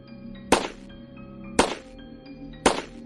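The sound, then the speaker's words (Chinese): Three pistol shots in a fight, each a sharp, loud crack with a short decaying tail, spaced about a second apart over a low, steady background hum. “来不及多想了，我抬手对准蓝脸国王二号就是三枪，”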